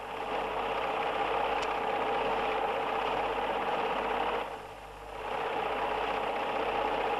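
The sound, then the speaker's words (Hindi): A sewing machine runs steadily while stitching cloth, giving a continuous mechanical whirring hum. The sound dips briefly about two-thirds of the way through, then resumes at the same level. “हाँ हाँ ये बात तूने ठीक बताई, सिलाई में दबा देती हूँ।”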